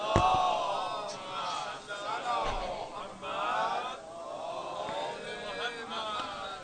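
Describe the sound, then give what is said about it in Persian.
An audience recites salawat together in unison, many voices rising and falling in rhythmic chanted phrases at a fairly soft level. “صلوات و هدی رو فاطمه عنایت بفرمایید.”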